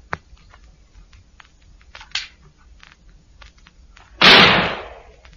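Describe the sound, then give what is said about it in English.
A gun is fired into the air out of a window: one loud, sharp blast with a short decaying tail, preceded by a few faint clicks in otherwise quiet surroundings. “Fire your gun out of the window. Just fire it in the air.”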